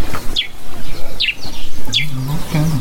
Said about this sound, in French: Au loin, le silence des lieux est parfois interrompu par des chants d'oiseaux,